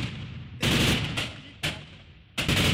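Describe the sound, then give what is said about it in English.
Gunfire exchanged in a city between Kurdish militia units and Syrian government forces: loud, sharp bursts and cracks, several separate volleys with fading echoing tails between them. “Amateur video showed Kurdish militia units known as Asayish exchanging fire with Syrian government forces over control of part of the city.”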